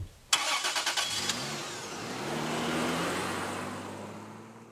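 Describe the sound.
A car engine cranks with a rapid run of rough pulses, catches, and settles into a steady mid-pitched hum that swells slightly as the car drives off, fairly quiet throughout.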